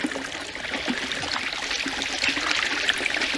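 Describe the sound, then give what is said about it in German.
Clear spring water in the desert splashing like a small fountain: a continuous bubbling trickle and patter, steady and moderately loud. “Herr Turtur wohnte mitten in der Wüste bei einer klaren Quelle, die wie ein kleiner Springbrunnen plätscherte.”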